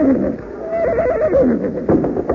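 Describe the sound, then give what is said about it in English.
A horse whinnies in a loud, wavering neigh whose pitch quivers up and down in a rapid trill, breaking into a few shorter bursts toward the end. No talking is heard. “Oh, there, horses.”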